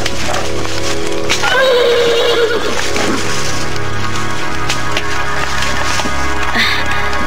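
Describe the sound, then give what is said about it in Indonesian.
A white horse neighs with a loud, high whinny that falls in pitch over about a second, set against a steady, dense background sound that runs through the whole clip. “Si tunggul kembali meringkik dan kini mendekati Raden Purbaya sambil menghentak-hentakkan kakinya dan sesekali menggerakkan kepalanya ke kiri dan kanan seakan-akan hendak memberikan salam pada Raden Purbaya.”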